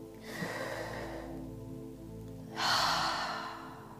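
Slow, deep breathing during a guided relaxation exercise: two long, airy breaths separated by a pause, the second one louder and fuller, with no talking over them.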